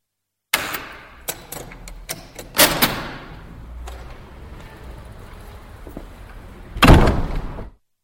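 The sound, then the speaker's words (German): Door sounds recorded as a sound-effect take: a string of sharp clacks and thuds, one heavier bang early on, a quieter rattling stretch, then a loud final slam that rings out before cutting off. “Take 4. Türen. A19.”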